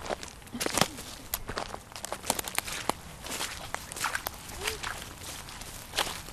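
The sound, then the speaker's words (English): Footsteps walking through a forest: many soft, irregular steps at an unhurried pace, moderately loud and continuing throughout, with no voices. “So if you want to grab your things and let's get walking.”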